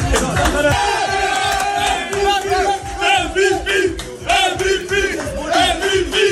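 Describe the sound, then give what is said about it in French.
Footballers give a player an ovation in the Paris dressing room with loud, rhythmic chanting and cheering from many voices, repeated in bursts that rise and fall in level. “mais on préfère clairement écouter l'ovation qu'il a reçue dans le vestiaire parisien.”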